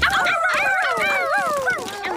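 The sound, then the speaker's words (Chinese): A dog whimpers and yips in a quick run of high, wavering whines that slide up and down in pitch, loud and continuous for about two seconds. “哈，乖狗狗。”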